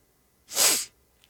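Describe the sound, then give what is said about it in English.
A single arrogant sniff, a sharp, loud nasal hiss lasting about half a second, alone against near silence. “Arrogant sniff to finish.”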